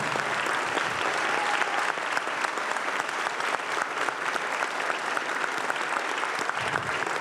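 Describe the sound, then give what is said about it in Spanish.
Audience applause at a plenary gathering on communal life: dense, steady clapping from a large crowd that holds an even loudness for the whole stretch, with no voices rising above it. “humildemente pido que podamos aplaudir a Floriberto, a Jaime,”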